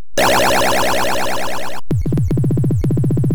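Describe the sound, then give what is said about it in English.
Arcade video game sound effects from Williams' classic Robotron 2084: a loud, dense wall of buzzing synthesized electronic tones for nearly two seconds, then a short break and a run of sweeping, warbling bleeps. No voices. “This is Williams' classic, Robotron 2084.”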